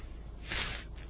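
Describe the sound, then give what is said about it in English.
A person with a runny nose blowing their nose: a single broad, rushing burst of breath that swells and fades within about half a second, with no voices. “Well, and I got to blow my nose.”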